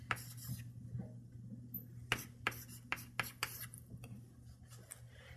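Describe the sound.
Writing on a board during a lecture: several faint, scratchy strokes in a loose rhythm over a low steady hum.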